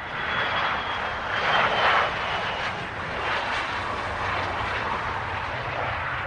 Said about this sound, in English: It's a small back road in North Dublin, and it's the home of a most unusual club. This is the road at the back of Dublin Airport, and it's home to the Dublin Airport Lay-By Club.